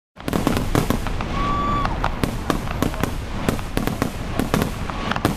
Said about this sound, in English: The aerial display of exploding multicolored sparks was often nothing short of awe-inspiring.